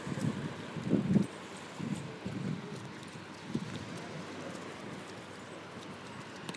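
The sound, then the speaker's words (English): Wind blows outdoors, buffeting the microphone with low, uneven rumbling gusts. The gusts are strongest in the first second and then settle into a steady, fainter roar. “Sorry for the wind. Not my wind, the wind.”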